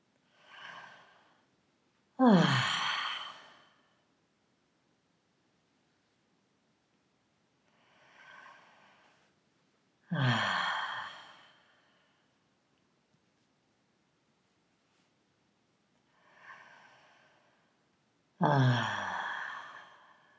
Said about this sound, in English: Now close your eyes and take a few deep breaths.